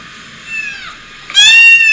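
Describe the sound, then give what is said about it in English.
Cats meowing, a long high-pitched meow followed by a second, louder meow, with no other sounds. “I wish we didn't have to kill all these cats.”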